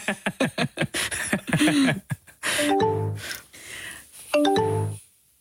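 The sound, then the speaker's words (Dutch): MSN Messenger's new-message notification sound plays twice as short bright electronic chimes of stacked tones. Rapid, choppy bursts come before the first chime. “Ja, het geluid uit je jeugd. Het geluidje van een nieuw bericht, hè? Ja, dat is MSN Messenger.”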